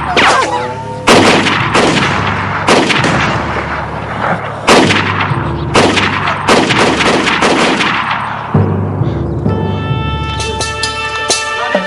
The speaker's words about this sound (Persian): باشه، خودتون خواستین. شلیک کنید.